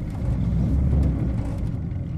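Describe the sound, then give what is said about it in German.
Engine of a fishermen's motorboat on Lake Balkhash in eastern Kazakhstan, a loud, steady, low rumble that runs unbroken throughout. “zwei Fischer aus Kuigan, starten ihr Motorboot und fahren auf den Balchasch hinaus, um ihre Netze zu kontrollieren.”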